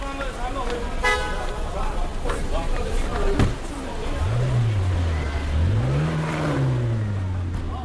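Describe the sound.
A red metallic McLaren convertible sports car, just pulled up along a curb, revs its engine in two swells that rise and fall in pitch. The revs cut through steady street noise in the second half.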